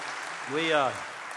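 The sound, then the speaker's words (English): Live audience applause at a music concert: steady, dense clapping that fills the whole clip, with a voice rising briefly over it in the middle. “Yeah, let's give him a hand.”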